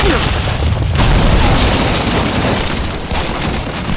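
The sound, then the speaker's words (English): Gunfire from riders ambushing a wagon on a rocky trail: a dense, continuous barrage of booming shots that merge into one loud, unbroken roar throughout. “looked in the direction of the shots and saw half a dozen riders charging down at them”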